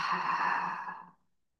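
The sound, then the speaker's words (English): A deep, slow exhale out through the mouth in a guided cleansing-breath exercise: one soft, breathy sigh that holds steady, then fades away into silence after about a second. “Taking a deep cleansing breath in through the nose, out through the mouth,”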